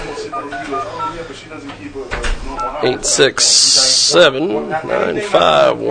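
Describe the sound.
A telephone number is dialed, with touch-tone beeps mixed in among voices and a loud burst of hiss partway through.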